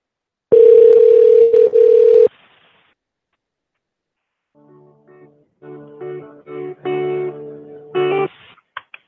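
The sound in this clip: A steady telephone dial tone holds for about two seconds, then, after a short silence, a series of short electronic tones follows as a number is dialed to call back. No voices are heard.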